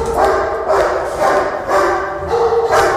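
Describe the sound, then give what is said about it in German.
Dogs barking inside an animal shelter housing around 65 dogs, with loud overlapping barks in repeated bursts that keep a dense, continuous din going throughout. “Wie viele Hunde habt ihr aktuell da? So 65 Hunde oder so, gerade so im Allgemeinen. Wollen wir mal reingehen einfach? Ja, oder, können wir machen. Oder, also es wird also halt laut.”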